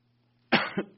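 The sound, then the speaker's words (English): A single person's cough comes in two rough bursts, the first stronger than the second. A faint steady hum sits underneath before it and alongside it. “As I cough.”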